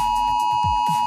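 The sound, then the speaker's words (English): A phone emergency alert test for Australia's Oz Alert warning system sounds as one steady, piercing high tone with a fainter higher overtone. It holds at an unchanging pitch and level for the whole moment. “And every phone, tablet and smartwatch in Australia will blast an alarm at 2 p.m. today. It sounds like this.”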